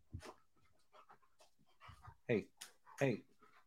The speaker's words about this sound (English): Hey, dude, these dogs have never-ending energy.